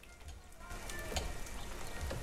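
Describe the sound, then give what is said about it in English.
Egg frying in a kitchen pan, with a soft, steady sizzle and scattered faint crackles and pops throughout. “Later, as the sun shines behind a tree, Peter's in his kitchen frying an egg.”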